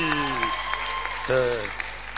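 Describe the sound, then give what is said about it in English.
A church gathering claps for a woman pastor who is about to play the keyboard. Rhythmic, fairly evenly spaced claps sound under loud, sustained voices. “Clap for you. What's your name? Eh? Fafali. Play something. Clap for Lady Pastor Fafali.”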